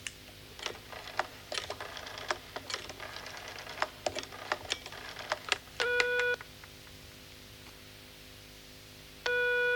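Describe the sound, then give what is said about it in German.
A telephone number being dialed: many soft, irregular clicking key presses, then a couple of clear, steady touch-tone beeps. “Indem ich nämlich einfach die Nummer wähle.”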